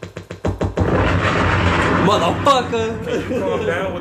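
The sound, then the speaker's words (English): Bomb drop and explosion sound effects: a rapid run of booming, gun-like hits opens loud, then gives way to a dense, rumbling wash with a voice over it. “Can you calm down with the bombs over there?”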